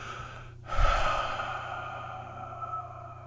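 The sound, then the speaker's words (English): A deep breath, a long breathy rush that begins abruptly after a brief quiet moment, then slowly tapers and fades over the following seconds, heard alone without any talking. “So I'm just going to take a deep breath”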